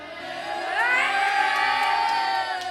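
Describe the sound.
A class of group-seven schoolchildren in a public library cheers and shouts together. The loud burst of high young voices swells quickly and holds at full strength for a couple of seconds.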